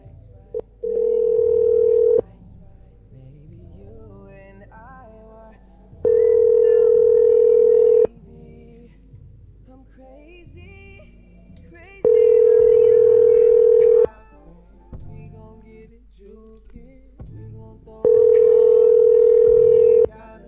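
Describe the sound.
A telephone line tone sounds while a call is being placed. Four long, loud, steady beeps of about two seconds each repeat with even gaps between them.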